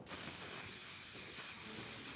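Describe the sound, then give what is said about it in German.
Hair spray is sprayed in one continuous hiss onto a pair of underpants, a steady, bright, fairly loud burst that lasts about two seconds with no voices. “Ich habe doch hier irgendwo Haarspray mitgenommen. Dann würde ich sagen, wir probieren das aus. Wir sprühen deine Unterhose fett ein.”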